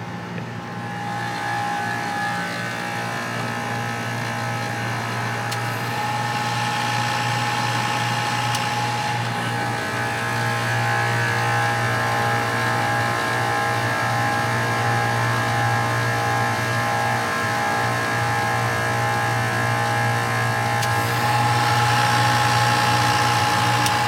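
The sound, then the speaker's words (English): Digital HVAC compressor running in the field, giving a steady mechanical drone with strong humming tones that grows slightly louder over time and holds a continuous, unbroken level throughout. “this is what a digital compressor sounds like in the field. You hear that riding?”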